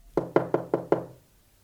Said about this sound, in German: Also verließ ich Nummer 12 und geisterte den Gang entlang und klopfte an eine Tür.